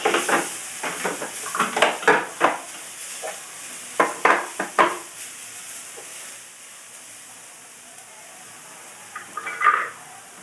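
A wooden spoon stirs food in a hot pan: a quick run of scraping strokes plays over a steady frying sizzle, then the strokes pause for several seconds and one more scrape comes near the end.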